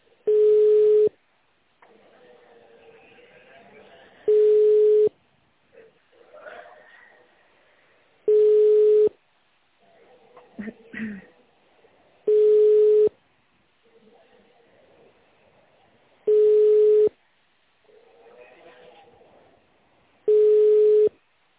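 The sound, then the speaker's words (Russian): Telephone ringback tone while a call is forwarded: six short, steady tones at even intervals of about four seconds, with faint muffled sounds on the line in the gaps between them. “Подождите, пока я переадресую ваш вызов.”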